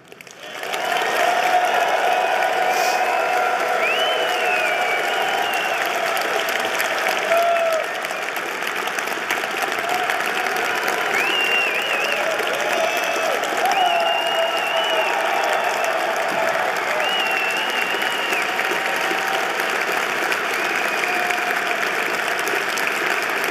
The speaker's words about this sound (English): I'd like to ask you to join me in showing our appreciation for this magnificent evening